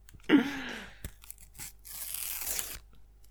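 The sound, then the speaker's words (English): A football sticker packet being torn open: a short, sharp rip at the start, then a longer, rustling papery tear, with no talking over it. “Start as you mean to go on. That was a confident tear right there. A no-swapsy tear.”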